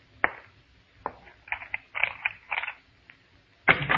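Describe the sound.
A door creaks open in several separate creaking, scraping bursts with quiet gaps between them, ending with a louder, denser creak.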